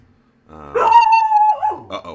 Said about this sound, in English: We have a dog. that's the dog. That's a dog. Just nobody be alarmed. It's a dog.